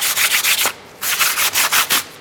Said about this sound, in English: We then sand off the rough parts of this pricking through.